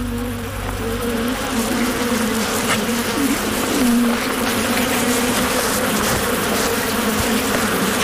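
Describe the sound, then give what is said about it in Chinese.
Dense buzzing of a bee swarm attacking a honey badger that has broken into their hive; a continuous, layered drone of many wings holds steady throughout with no voices. “面对蜂群的攻击，蜜獾丝毫没有退缩。”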